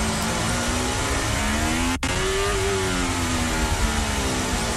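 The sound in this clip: A Formula 1 car engine revving at the Monaco Grand Prix produces a loud, steady, high-pitched whine. A brief dropout falls midway, and the pitch then rises slightly.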